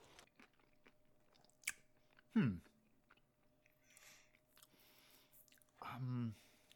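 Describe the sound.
Crunchy biting and soft, squishy chewing of an Impossible Whopper burger, a few distinct bursts separated by quiet gaps, with brief voice sounds.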